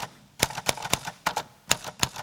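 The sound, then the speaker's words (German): Typewriter keys struck during an art-academy performance at the opening of a writing event: several sharp, irregular mechanical clacks over two seconds, moderately loud, with no voices. “Handy weg und ran an die Schreibmaschine.”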